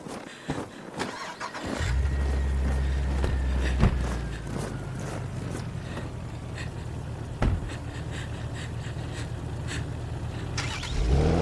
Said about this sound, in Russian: Машины с бандитами уезжают.